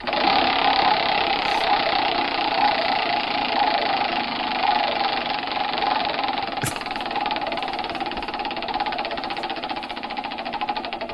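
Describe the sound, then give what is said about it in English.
A six-foot-tall prize wheel being spun in a game to pick a random celebrity, giving a loud, fast, continuous mechanical rattle of clicks that runs steadily for about eleven seconds with no talking. “should we spin that wheel?”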